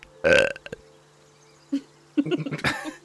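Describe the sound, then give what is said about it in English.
One loud, throaty burp, followed after a pause by short vocal grunts and cough-like bursts. “I burp back and then run off.”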